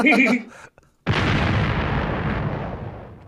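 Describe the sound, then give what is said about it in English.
A bomb explosion sound effect: a short tonal sound and a brief pause, then a sudden loud blast that slowly fades over about two seconds. “I'm gonna just need another bomb for that. Just drop another one.”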